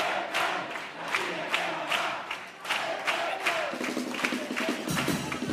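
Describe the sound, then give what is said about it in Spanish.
Theatre audience at a chirigota carnival contest cheering and applauding, a dense, steady crowd roar with scattered sharp claps and shouts running throughout. “Y aquí, mira, bueno, el público, mira, mira. Sí, sí, sí, sonido del teatro.”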